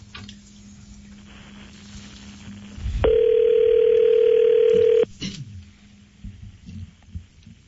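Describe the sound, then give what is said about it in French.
A steady telephone dial tone on a phone line as a call is about to be dialed, holding one even, loud pitch for about two seconds before cutting off, with a faint low hum before and after. “Luc est en train de composer.”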